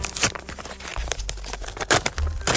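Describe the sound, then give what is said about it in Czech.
A paper envelope is torn open and crinkled, giving irregular crackling and ripping bursts over a low rumble, with a couple of louder tears near the start and the end. “Mám tady další obálky, tentokrát dvě, ale myslím si, že ti hodně pomůžou. Pozor, otevírám první.”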